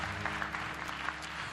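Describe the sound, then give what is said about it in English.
A church audience applauds the worship team, a faint, steady wash of clapping with no distinct individual claps standing out. “Let's give our worship team a round of applause. They always do a great job.”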